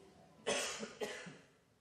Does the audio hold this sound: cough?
yes